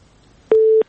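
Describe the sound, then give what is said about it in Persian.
Telephone busy tone after a call with a radio listener dropped: a single steady electronic beep lasting about a third of a second, sounding alone against near silence. “فکر کوم لدی اوریدونکو سره مو تماس قطع شوی دی.”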